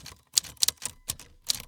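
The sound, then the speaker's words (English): Sharp mechanical clacks of typewriter keys as someone types to finish a children's book. The strikes come in an uneven rhythm of a few quick hits, fairly faint, with near-silent gaps between them and no talk. “Ah, do you hear that? That's the sound of kids author extraordinaire Andy Griffiths putting the finishing touches to his new book, You and Me and the Gigantic Knucklehead.”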